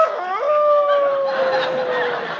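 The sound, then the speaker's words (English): A person howling like a wolf, imitating the animal's call: one long, loud, sustained howl that rises at the start, then holds and slowly sinks lower over steady background noise. “Gee, he's crazy, howling like a wolf.”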